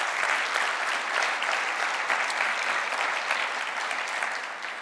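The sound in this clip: Congregation applause during a church service: dense, even clapping holds steady for the whole stretch and eases slightly at the very end.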